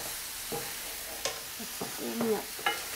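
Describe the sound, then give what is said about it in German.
Roasted mushrooms, onions and dried plums are stirred into a goat and sheep cream cheese. Soft spoon scraping and a few light clinks sit over a steady faint hiss. “Ich gebe jetzt hier die angerösteten Pilze mit den Zwiebeln und den getrockneten Pflaumen zu der Frischkäsecreme, Ziege und Schaf.”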